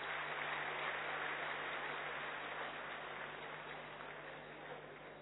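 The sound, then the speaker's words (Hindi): Audience applause at a ceremony where a memento is presented to an honoured elder: dense, steady clapping that holds evenly from start to finish, with no talk over it. “ये केवल चार भाई नहीं परंतु आप सबकी ओर से आप अपने लिए करतल ध्वनि कर सकते हैं।”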